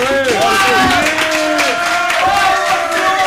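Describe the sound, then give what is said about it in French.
Live audience noise fills a hall at a film festival during a live show. Many voices chatter and call out at once, with scattered clapping, loud and steady throughout. “Et si vous entendez du bruit, bah c'est parce qu'il y a du monde dans la salle.”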